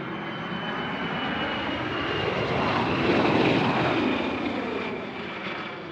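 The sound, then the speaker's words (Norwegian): Airplane engine roar as a plane lands at Fornebu airport in 1967: a broad, steady drone that swells toward the middle and then slowly fades, with no voices. “Min landsby lander på Fornebu denne sommerdagen i 1967. Det er rart å tenke på at ut av dette flyet,”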